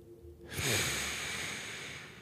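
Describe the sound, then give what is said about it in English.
A slow, deep breath drawn in and let out while walking through a house in the morning: a loud, airy rush that swells after a brief quiet start and holds steady, with no talk. “inhale, exhale”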